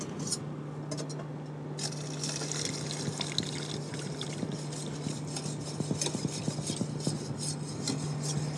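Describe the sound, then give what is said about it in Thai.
Liquid is poured into a hot pot just taken off the heat while cooking, a steady watery pour with scattered light metallic clinks of utensils and cookware. “แล้วเราก ็ปิดไฟ นะคะ แล้วก็เอาตัวนี้เทลงไปนะคะ”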